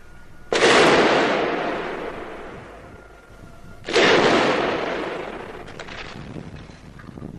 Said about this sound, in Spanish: Las sirenas corresponden a las bombas que se dirigen hacia el Palacio de la Moneda